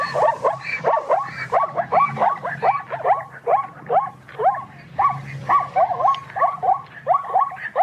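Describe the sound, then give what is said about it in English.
A zebra calls in a long run of rapid, barking yelps, each a sharp, nasal rising note repeated in a steady, pulsing rhythm over a low rumbling background. “If you see something that's black and white striped, then you're probably looking at a zebra, especially if it sounds like this.”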